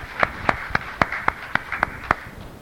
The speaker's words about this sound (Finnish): Kiitos Jumalalle, taputetaan pastorille.